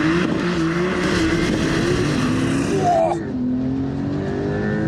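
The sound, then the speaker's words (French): A car launches hard under launch control on a very slippery wet track, its engine roaring loud and continuous with a brief dip and change in pitch at a gear shift. “Donc, pied à fond sur l'accélérateur. J'ai un petit affichage hold qui me dit que je suis en procédure launch control. C'est parti, je lâche.”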